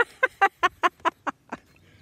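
Seven short, nasal duck quacks in an even rhythm, each a brief honking burst, growing fainter toward the end before silence.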